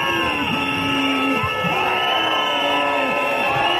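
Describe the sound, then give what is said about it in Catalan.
Protest crowd of striking teachers and municipal workers at Plaça Sant Jaume in Barcelona, outside City Hall at a tense moment: a constant, dense roar of voices with droning tones held underneath. “Aquest és el so de la protesta que hi ha hagut a plaça Sant Jaume.”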